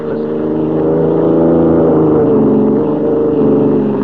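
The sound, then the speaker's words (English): Steady engine drone of a car driving along a road, a continuous low rumbling hum at even loudness throughout, with no distinct gear changes or passing vehicles. “we join White and Lois, who are driving alone to see the governor in the state capital 140 miles away.”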